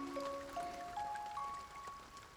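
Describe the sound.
Rain falling in a steady, soft patter that holds evenly throughout, with a few faint sustained tones drifting over the noise.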